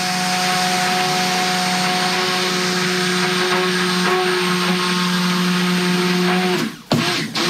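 Oils and caustic lye being mixed in a mixing bowl, a loud, steady motorized whirring and humming that runs constantly for about seven seconds, then cuts off abruptly.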